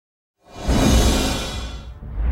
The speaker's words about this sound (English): With Kizik Hands Free Shoes, it sounds a little something like this.